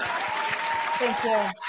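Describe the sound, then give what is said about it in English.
Brief burst of clapping to congratulate someone for deleting their social media apps, quick and fairly loud, with voices talking over it near the end before it cuts off abruptly. “You know what? We clap for that. Congratulations.”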